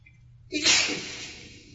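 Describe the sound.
A single sneeze rises out of near-quiet in a sharp, breathy burst, then trails off into a hissing exhale.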